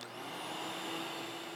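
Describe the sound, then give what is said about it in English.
A vacuum cleaner runs with a steady, loud whirring roar and a high motor whine, holding constant throughout without breaks. “Right. Vacuuming time. All right, here we go.”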